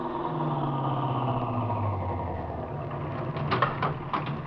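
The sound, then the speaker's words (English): A car drives up and arrives, its steady engine rumble carrying a slowly falling tone, with a few sharp clattering knocks near the end. “This is probably him driving up now.”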